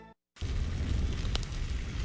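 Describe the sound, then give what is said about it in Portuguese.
Meat cuts roasting on a restaurant parrilla grill give a loud, dense crackling sizzle that starts abruptly after a brief silence and holds steady, with one sharper pop partway through. “Esse é o som da parrilha do Pobre Juan, de onde saem cortes assados no ponto perfeito.”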